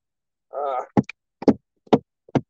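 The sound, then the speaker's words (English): A headband smacks against a chair four times, sharp knocks spaced roughly half a second apart, after a brief voiced hum. “That is the sound of my headband smacking against the chair.”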